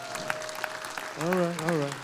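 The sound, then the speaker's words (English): Applause from a church audience on a Sunday. Faint scattered clapping continues as a voice begins talking over it partway through. “So you can clap for that.”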